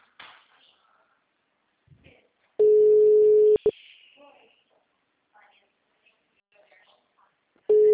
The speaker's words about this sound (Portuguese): Eu ligo. Se ele não atende, eu chamo no WhatsApp e mando áudio.